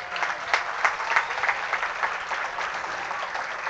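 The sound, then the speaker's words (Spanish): Applause from a crowd at a municipal accountability meeting in Flandes, Tolima, honouring local public officials: continuous, fairly quiet clapping with a dense, even texture and small swells throughout. “le demos un aplauso a todos los funcionarios de Flandes”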